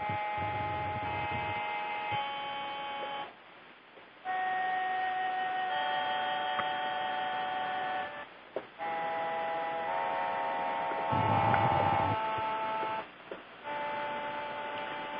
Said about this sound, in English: heart chakra sounds like this.